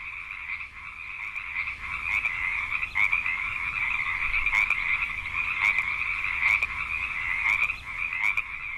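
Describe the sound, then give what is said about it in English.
Frogs croaking at night in springtime form a loud, continuous chorus of high, buzzing trills, steady across the whole span with faint clicking pulses layered over it and no talking. “I mean, it's just frogs. People literally buy ambient CDs just to fall asleep to the noises that I get to listen to right now for free.”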